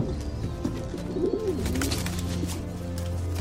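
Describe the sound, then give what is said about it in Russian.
A carrier pigeon landing on the ledge of a dirty window coos in soft, low, warbling calls over a continuous background. “На карниз грязного окна прилетает почтовый голубь.”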